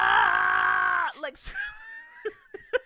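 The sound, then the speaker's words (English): A voice imitates a man screaming as if shot: a sustained, strained, loud cry that breaks off after about a second, followed by a few faint, breathy gasps and clicks. “screaming like he got riddled with bullets. And his body's moved like that, shaking.”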